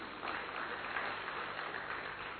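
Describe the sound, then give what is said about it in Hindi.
An audience at a Rajyoga gathering on the Gyan Sarovar campus applauds itself: a soft, even patter of many hands clapping, sustained at a steady low level for the whole stretch. “एक जोरदार करतल ध्वनि स्वयं ही स्वयं के लिए कर लीजिए।”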